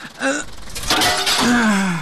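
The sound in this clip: Pane of door glass being smashed: a sharp, bright crash partway through, with strained groans and gasps from a voice around it.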